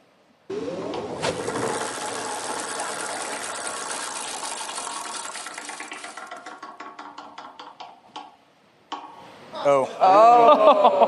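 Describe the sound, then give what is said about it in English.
A prize wheel spins with a dense rush of clicking. The clicks slow into distinct, spaced ticks and then stop, and voices follow. “Spin the wheel.”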